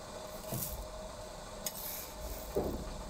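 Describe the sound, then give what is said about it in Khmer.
Faint, dull thumps as roasted soybeans and rice are pounded fine for tea, with a few spaced strikes and soft grinding scrapes between them. “យើងចាប់ផ្ដើមបុកដើម្បីឲ្យវាម៉ដ្ឋចា៎អ្នកខ្ញុំចាប់ផ្ដើមបុកអញ្ចឹងពេលដែលយើងបុកនោះយើងលាយវាឲ្យបានស្មើគ្នា”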